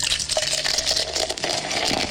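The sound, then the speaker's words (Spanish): Cold beer poured into a glass makes a continuous, fairly loud gushing and fizzing stream of liquid that carries on evenly throughout. “Ahí están los muchachos, llenando tu vaso de cerveza fría de Raza Liquor Store.”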